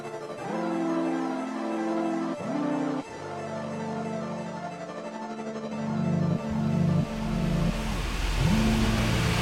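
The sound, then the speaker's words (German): A car engine drives toward the harbour, revving up through the gears and dropping in pitch at each shift, loud and continuous with no voices. “Wir fahren ohne Christian Richtung Hafen.”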